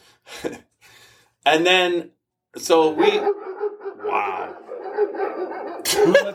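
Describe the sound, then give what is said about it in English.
Dogs barking in a few loud, voiced bursts and yelps, separated by short gaps and mixed with human voices. “who let the dogs out? Damn it!”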